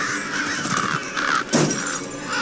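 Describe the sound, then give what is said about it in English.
Crows cawing, several harsh, nasal calls repeated in quick succession, fairly loud and heard without talk. “Always crows.”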